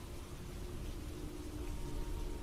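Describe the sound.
Steady rain falls during a thunderstorm outside a small village shrine, a faint, even hiss with a low rumble underneath throughout, and no distinct thunderclap.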